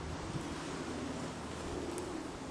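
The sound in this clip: Wind blows outdoors in an open spot with no houses, beside two fences. It makes a steady, even rushing noise that stays constant throughout, with no voices.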